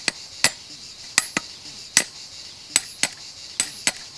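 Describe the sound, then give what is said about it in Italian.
Nine sharp metallic taps on a sickle blade made for cutting grain, struck mostly in quick pairs with a bright, high ringing edge to each hit and short silences between the pairs. “e diventa questa lama tagliente e brutta, tutta ziclinata, è proprio apposta per tagliare lo grano. Si fanno due colpetti così”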